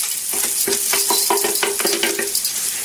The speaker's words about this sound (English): Oh my God, she completely burned the garlic. The garlic has now turned brown. And now add the rice.